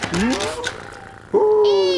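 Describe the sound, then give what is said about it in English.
A pet cat meows, first with a shorter, quieter rising cry, then with a louder, drawn-out meow that has a bright, steady tone. “Who's been a clever little kitty cat and drunk all the milky weepy, eh?”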